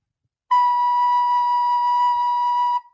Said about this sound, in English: I am going to play a B for you just to check out if it's your first time of playing that you think you're doing the right thing. So this is what a B sounds like.